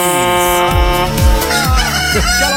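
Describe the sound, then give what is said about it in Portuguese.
A rooster crows loudly in long, drawn-out calls with a strained, buzzing, harmonic tone that fills the whole stretch. “Quero ver teu galo aí, já aguentando de hoje, velho.”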